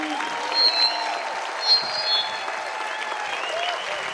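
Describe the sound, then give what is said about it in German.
Applause from a concert audience in Nürnberg, a steady wash of clapping with a few brief high whistles rising over it, holding at an even, moderate level throughout. “Applaus für ihn.”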